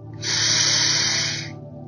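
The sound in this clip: A deep breath drawn in during guided meditation: a single airy, hissing inhale lasting a little over a second, swelling quickly and then fading away, heard alone.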